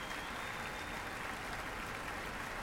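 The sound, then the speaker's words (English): Keen applause from a concert audience at the Town Hall after an orchestral performance, quiet but dense and unbroken clapping from many hands. “to acknowledge the keen applause, the enthusiastic stomping of feet here at the Town Hall”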